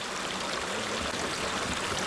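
Steady running water pours while fresh wasabi is rinsed, a continuous, even hiss with no pauses and no voices.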